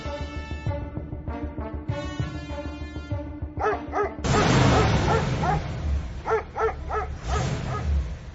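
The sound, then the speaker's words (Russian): Dogs barking in short, rough bursts over a low rumbling background, with whimper-like tonal sounds before the barking starts. “Залаяли собаки.”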